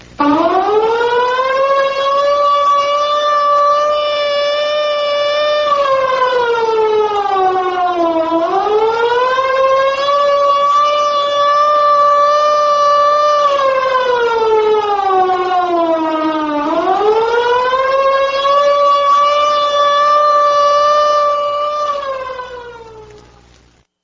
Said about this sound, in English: The take cover signal is a wailing tone or a series of short blasts of 3 minutes duration.